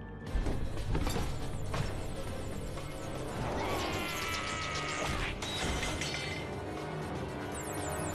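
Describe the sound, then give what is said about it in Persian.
A lock is being worked open by large, clumsy hands in an animated scene, producing busy metallic clicking, ratcheting and rattling that runs on continuously at moderate loudness. “هی فکر میکنی باز کردن قفل با همچی دستایی آسونه؟”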